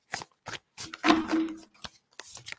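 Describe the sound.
Playing cards are shuffled right beside the microphone during a new moon card reading, giving crisp papery riffling bursts, with one longer sustained shuffle in the middle, moderately loud and heard without talk.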